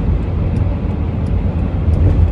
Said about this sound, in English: I'm actually driving north from Calgary, and I'm off to Stony Plain